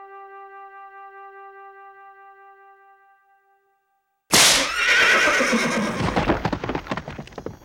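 A horse neighs loudly and shrilly after steady sustained tones fade into silence. Rapid hoofbeats follow the whinny as it trails off.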